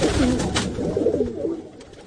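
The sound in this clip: Pigeons coo in a yard, giving low, soft, throaty cooing phrases over a faint background hiss.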